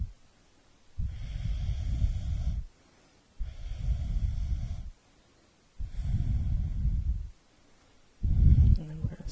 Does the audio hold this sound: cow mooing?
no

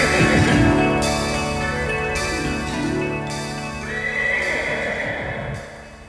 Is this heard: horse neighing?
yes

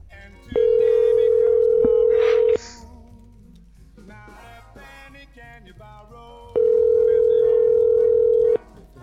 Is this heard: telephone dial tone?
yes

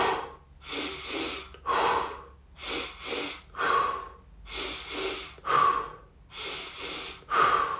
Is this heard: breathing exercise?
yes

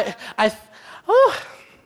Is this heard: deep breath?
yes

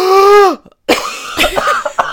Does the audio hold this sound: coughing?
yes

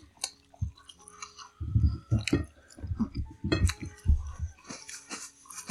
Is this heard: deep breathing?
no

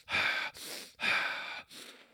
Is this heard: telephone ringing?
no

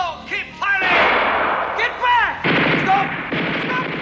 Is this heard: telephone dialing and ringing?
no

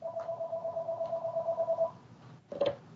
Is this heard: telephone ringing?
yes

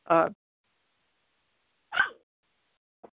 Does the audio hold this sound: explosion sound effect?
no

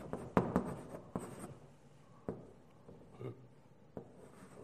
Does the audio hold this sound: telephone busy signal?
no

